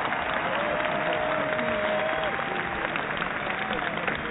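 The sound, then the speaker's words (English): Applause rings out from a crowd, a dense, steady wash of clapping that holds at an even, loud level throughout, with a faint voice sitting beneath it. “A round of applause”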